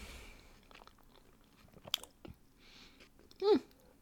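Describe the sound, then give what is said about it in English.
Someone chews a bite of a Taco Bell potato item with a few soft, uneven crunches and wet bites, ending with a short voiced murmur. “This is one of the potato things. I don't know, I've like never had Taco Bell before. I just thought I would order it, you know? Whatever. Hang on, I'm gonna have a little bite.”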